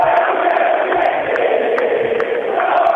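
Independiente football fans roar in a stadium, a dense, steady crowd roar that holds at a loud level throughout without clear breaks.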